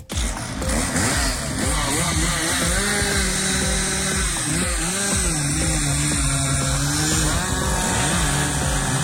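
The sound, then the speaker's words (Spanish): Chainsaw run by gardening staff cutting through the trunk of a large fallen tree on a university residence campus. A loud, continuous buzzing engine whine fills the whole clip, its pitch wavering and dipping as the blade bites into the wood, with no talk. “Así se cortaba el tronco de este árbol de grandes dimensiones por parte de personal de jardinería de la Universidad de Santiago”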